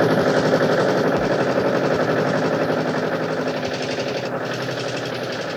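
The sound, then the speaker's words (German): Aircraft engines running on a plane with at least four engines, a dense, rapid throbbing roar that stays loud and even throughout and eases slightly toward the end, with no voices. “Aber die Motoren laufen schon.”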